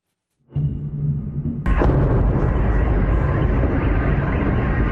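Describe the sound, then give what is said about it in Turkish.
A shoulder-fired rocket launched at a drone bursts out with a sudden loud blast, then a sustained roaring rush. A low rumbling background comes before the launch. “Bir askerin omuzdan atılan roketle İHA'yı vurmaya çalıştığı sırada çevredeki Türklerin vur vur diyerek cesaret verdiği görüntüler sosyal medyada yayınlandı.”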